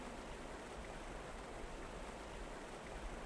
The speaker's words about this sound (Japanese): せせらぎが気持ちいい。